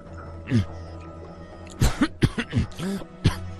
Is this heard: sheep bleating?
no